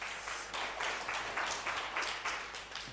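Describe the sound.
Audience applause greets a guest speaker coming up to talk, a steady, fairly quiet wash of many hands clapping that keeps going evenly throughout with no voices over it.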